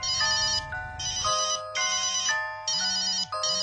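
Electronic telephone ringtone plays in several loud, bright melodic bursts with short gaps between them, repeating the same high tune with no voices.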